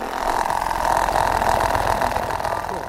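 Battery-powered motors driving a scribbling robot built by kids in an after-school STEAM class give off a continuous mid-pitched buzzing whir with a rough, rattling low edge, steady and even in loudness from start to end.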